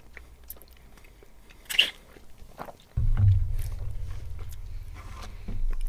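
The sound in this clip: Chewing and biting on a pineapple-flavoured snack: one sharp, crunchy bite, then soft, quiet mouth and chewing noises.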